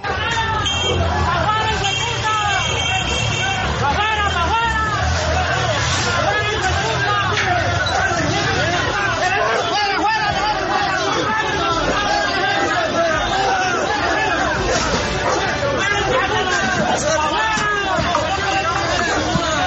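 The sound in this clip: An agitated crowd scuffles with police guarding the town hall in California, Santander, Colombia. Overlapping raised voices and shouts form a dense, continuous hubbub throughout.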